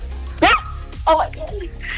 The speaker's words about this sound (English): Is that a dog barking? Is that a dog barking or is that you?